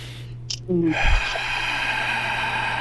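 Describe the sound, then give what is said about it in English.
A deep inhale through the nose: a brief vocal sound, then a long steady breathy hiss lasting about two seconds over a constant low hum. “3, 2, 1, in through the nose.”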